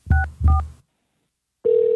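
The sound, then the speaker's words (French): Telephone keypad tones as a number is dialled: two short beeps in quick succession, a brief silence, then a steady continuous tone, with no talking. “Je compose son numéro en ce moment.”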